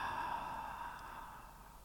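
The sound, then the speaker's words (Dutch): A slow, relaxed breath from a guided meditation, heard as a soft, airy, sigh-like rush of air that gradually fades over about two seconds. It is fairly quiet, with no voices. “Adem in. En adem uit.”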